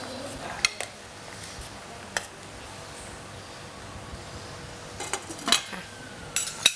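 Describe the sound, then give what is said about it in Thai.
A utensil clinks and knocks against a pot while fish sauce is stirred into pork belly and pineapple. A few faint, scattered clinks come over a quiet background, gathering more closely toward the end. “ใส่น้ำปลาลงไปเลยนะคะคนให้เข้ากัน”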